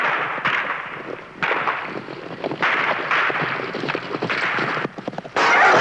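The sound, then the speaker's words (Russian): Galloping horses carry fleeing riders in a period war drama. Dense, rapid hoof thuds sound over a continuous rushing noise and stay loud and driving throughout. “Белогвардейцы скачут на лошадях от партизан.”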